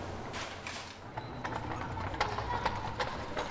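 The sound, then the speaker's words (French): Hooves clip-clop steadily from a horse-drawn carriage on a guided city tour through an old quarter near a cathedral, a brisk rhythm of sharp knocks under people talking. “je fais des visites commentées de la ville en calèche”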